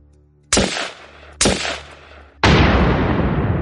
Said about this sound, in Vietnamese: Hai tiếng súng và một tiếng nổ dữ dội